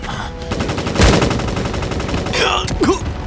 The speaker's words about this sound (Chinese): 可以打掉敌人的机枪，瞧好了。